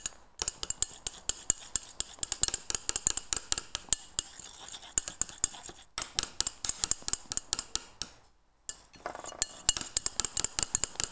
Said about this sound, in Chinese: OK，先给它搅拌均匀，我们再加第二轮，因为我的碗已经满了